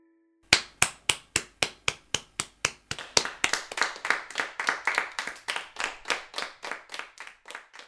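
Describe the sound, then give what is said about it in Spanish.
Bare hands clapping as body percussion: sharp, crisp claps start at a steady, even pace, then become quicker and denser with overlapping slaps. The clapping is loud and heard alone. “El sonido de hoy fue el de manos aplaudiendo.”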